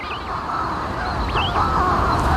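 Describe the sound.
Atlantic shearwaters call at their breeding island, a few faint, wavering nasal cries over a steady low rumbling background.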